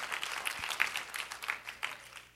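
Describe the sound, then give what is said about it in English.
Hand clapping from a church audience, a steady patter of applause marked by several sharper, louder claps at irregular intervals. “You can clap. That's a good man. Yeah. These are good things. So clapping your hands is positive.”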